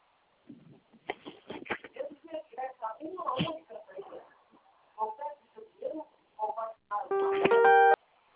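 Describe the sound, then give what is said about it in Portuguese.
A single telephone keypad tone from pressing zero sounds as a steady electronic beep of under a second, following a recorded voice that talks for several seconds. “Para concluir a liberação, aperte o zero e fale com um atendente.”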